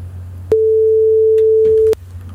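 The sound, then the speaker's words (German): A pure sine tone with no overtones, generated on a PC, sounds as one loud, steady note lasting about a second and a half. Its pitch stays constant, and it starts and stops abruptly over a faint low hum. “ich möchte mal auf dieses nervige Geräusch zurückkommen von der Sinuswelle. Wenn ich das Ding am PC zusammensetze, dann kann ich das so reinmachen, dass es einfach nur ein einziges Stück ist, ohne Obertöne.”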